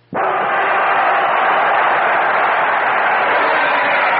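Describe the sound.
Studio audience applause for a Bob and Ray comedy show, welcoming a regular performer back. A loud, steady wash of clapping starts abruptly and holds at an even level throughout, with no voices over it.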